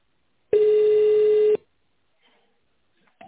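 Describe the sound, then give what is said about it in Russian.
A single steady telephone ringback tone sounds for about one second as a call is transferred to a company secretary, followed by faint scattered noises and near silence. “Звонок переводится на секретаря.”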